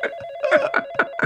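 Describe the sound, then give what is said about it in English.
A telephone ringing in the background of an album recording, heard as a steady electronic tone running beneath a few louder, choppy bursts of other sound. “there's two tracks where you can hear the fucking phone ring in the background.”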